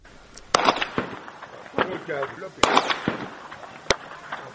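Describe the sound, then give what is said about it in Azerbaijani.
Gunfire cracks from a military firing range beside farmland near Goygol, Azerbaijan. Several sharp, irregular shots ring out, and voices can be heard talking between them. “Yanılmırsınız. Eşitdiyiniz atəş səsidir. Amma bura döyüş zonası deyil.”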